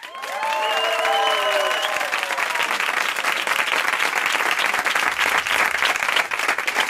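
A huge crowd of auction participants applauds in a dense, steady wash of clapping that stays loud throughout, with a few high whoops at the start.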